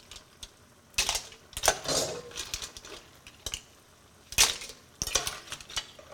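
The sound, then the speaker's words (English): Cooked mussels in their shells tossed into a metal pot, giving a few bright clattering, clinking bursts of shell on metal with quieter rustling between them. “I'm going to take them out and I'm just going to throw them in this pot.”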